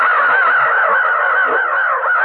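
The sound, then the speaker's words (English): Ravens cawing as a flock bursts into the air above an arroyo, a continuous stream of harsh, overlapping calls that stays loud and dense throughout. “I dropped suddenly in the ground as a cloud of giant black scavenger birds erupted from everywhere. Ravens! So that's what I heard.”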